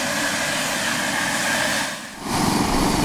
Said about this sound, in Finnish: Niin nyt moottorit käynnistyy siinä. Siinä alkaa lapaa jo liikkumaan.